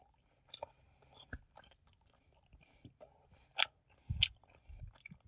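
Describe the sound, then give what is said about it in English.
Someone chews a three-year-old Milky Way bar with caramel, making faint, sticky mouth sounds broken by a few sharper crunchy bites that stand out from quiet gaps. “I'm throwing it in my mouth like a piece of popcorn, baby. Here we go. You know what? Doesn't taste so bad no more.”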